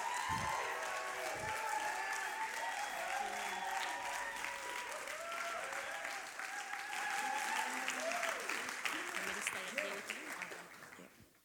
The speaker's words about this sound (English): So why don't we put our hands together and welcome Christian to the stage.